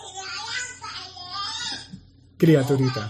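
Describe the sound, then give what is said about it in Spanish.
A young girl cries in high, wavering wails for about two seconds, then an adult voice starts speaking over the end of the sobbing. “No llores, mi amor, no llores. No se puede. No llores.”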